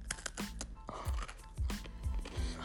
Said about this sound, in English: we're going to have a 10-second eating ASMR.